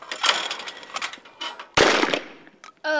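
A shotgun with a slightly longer barrel fires at a clay target: one sharp, loud blast midway through, surrounded by a few shorter, quieter sounds before it and a brief tonal sound at the end.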